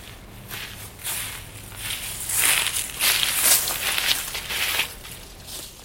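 Footsteps walking slowly on forest soil, a few soft crunching, rustling steps at an uneven pace, with no voices.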